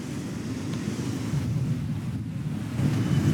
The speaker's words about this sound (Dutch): Zee is heel wild vandaag.